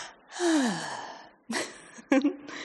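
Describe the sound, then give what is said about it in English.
A voice imitates trees opening their stomata to take a breath: one long, drawn-in gasp that slides down in pitch, followed by a few shorter, breathy puffs, fairly quiet and with no talk. “when the wind blows and it changes and they have their carbon again, they open their stomata to take a breath. And the ranger said he can sometimes literally hear them go,”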